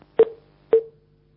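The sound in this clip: Telephone line tones sound after a caller's call drops: two short, evenly spaced beeps at a steady mid pitch, each starting with a click and trailing off.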